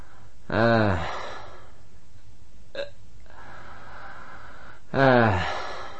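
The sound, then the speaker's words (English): Two prominent, raspy inhale breaths, each a loud voiced gasp lasting about half a second and roughly four seconds apart, with a brief faint sound between them and quiet in between. “Note the prominent return of the inhale breath sound. On the following breath, that takes approximately 2.5 seconds.”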